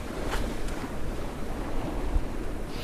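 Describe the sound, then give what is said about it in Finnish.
Light summer waves wash against a white sailboat heeling over as it cuts through a gentle chop at sea in an archipelago, giving a steady rushing of water mixed with wind, with no voices. “tämmöistä vielä kesäistä kevyttä aallokkoa halkoen valkoisella kontessa purjeveneellä.”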